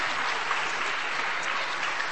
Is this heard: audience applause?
yes